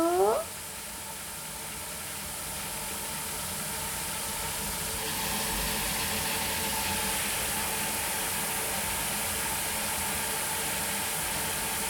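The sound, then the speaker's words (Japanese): A steady hiss of hot water being poured over a cat, flowing continuously and evenly at a soft level, with no talk over it. “じゃあお湯かけるよ。”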